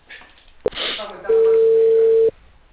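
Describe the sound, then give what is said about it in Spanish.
A telephone ringback tone sounds on the line as a call is placed. A sharp click and some faint noise come first, then one steady, mid-pitched tone that lasts about a second. “Ya le estoy llamando.”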